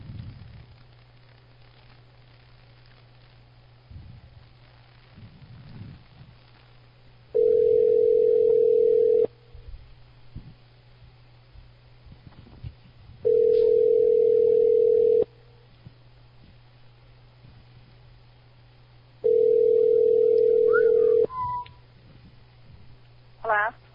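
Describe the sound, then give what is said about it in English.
Ringback tone on a telephone line after dialing another number: three evenly spaced, steady mid-pitched tones of about two seconds each, separated by longer gaps, over a low constant hum, with talk between them. “Hold on. I'm dialing another one.”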